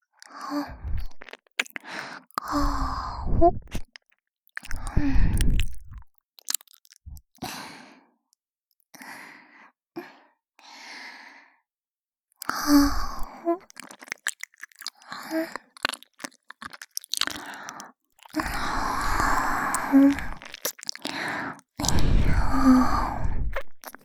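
Wet, close-up ear-eating mouth sounds from an intimate ASMR roleplay: many soft licks, nibbles and smacks mixed with breathy sighs, arriving in irregular bursts separated by short quiet pauses.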